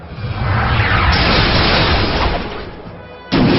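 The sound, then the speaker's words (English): Nightstick attack effect from a monster-battle video game: a loud, rough, explosive burst swells and roars for about three seconds. It eases slightly before one sharp hit at the end. “Apparition used Nightstick.”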